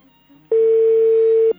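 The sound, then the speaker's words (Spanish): A telephone ringback tone heard while calling someone: a single loud, steady tone lasting about a second. It sounds alone, with quiet before and after. “Ahí suena. A ver si atiende.”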